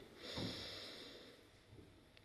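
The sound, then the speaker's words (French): A deep breath in during a breathing exercise: one soft, airy inhale that swells early and tapers off over about a second, quiet and alone with no talk. “Donc on inspire,”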